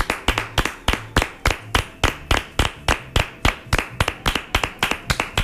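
Applause for delivery workers as rhythmic clapping: many sharp, evenly spaced claps in a steady beat, with no talk over them.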